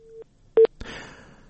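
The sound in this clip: Telephone line tones from a dropped call: a steady tone cuts off, then a single short beep, followed by crackly line noise.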